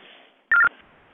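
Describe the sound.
A burst of TTY tones on a phone line: one short, chirpy electronic warble, about a fifth of a second long, rising sharply out of faint line hiss and then cutting off.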